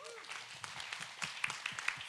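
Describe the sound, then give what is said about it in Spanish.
Faint audience applause, with brief scattered clapping and quiet voices. “Un aplauso, Eric.”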